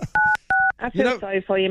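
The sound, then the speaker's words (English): Two short, bright telephone keypad dialing tones beep in quick succession, loud and evenly spaced, followed by people talking. “I can't even dial a phone number.”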